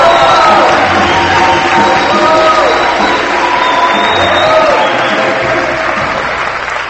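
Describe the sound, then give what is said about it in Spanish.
A church audience applauding and cheering: dense, steady clapping from many hands with scattered whoops and shouts rising above it, sustained throughout and easing slightly toward the end. “A ver, un aplauso a Jesús, un aplauso al Señor.”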